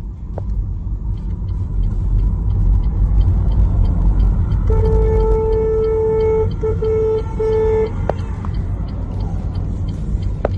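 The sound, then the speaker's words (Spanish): Steady, loud road rumble of a car driving on a highway, recorded from inside by its driver. A sustained, slightly broken tone sounds for about three seconds midway through the drive. “Lo que acabas de escuchar es la grabación que hizo un conductor tras observar cómo otro vehículo circulaba en la misma dirección que él,”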